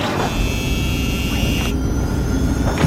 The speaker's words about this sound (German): Hui, wir starten und heben ab von der Erde.